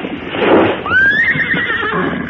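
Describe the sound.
A horse neighs loudly, a long wavering whinny that rises at the start and trails off over roughly a second, after a short burst of rough noise.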